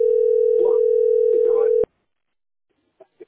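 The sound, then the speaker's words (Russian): A telephone ringing tone during a call: a steady, single-pitched electronic tone holds for nearly two seconds while people talk over it, then cuts off abruptly into silence broken by a couple of faint short sounds. “Ну, звонок у тебя идет.”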